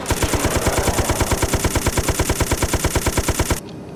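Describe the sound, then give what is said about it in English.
Automatic gunfire rattles in a video game: a long, loud burst of many rapid, evenly spaced shots at a steady rhythm that stops abruptly near the end, leaving quiet background. “Oh shit, I'm wasting fucking bullets.”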